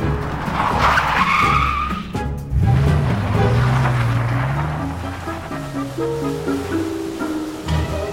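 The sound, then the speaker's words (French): A car speeding off with screeching tyres in a comic audio drama: a loud, bright squeal opens, then a whining engine-like tone sweeps upward and levels off, fading into lower sustained tones. “Et hop, Fix saute dans sa voiture.”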